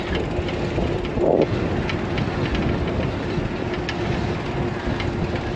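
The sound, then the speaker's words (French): Trains heard while passing beside a railway station, as a steady, dense rumble and hiss with a low tonal hum running through it and no clear breaks. “Alors là, je passe juste à côté de la gare”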